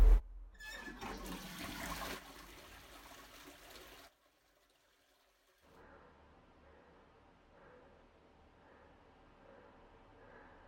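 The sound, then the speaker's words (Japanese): A toilet being flushed: loud rushing water for about four seconds that cuts off abruptly, a short silence, then faint trickling water continuing to the end. “綺麗に拭き終わったので、これから流したいと思います。流します。”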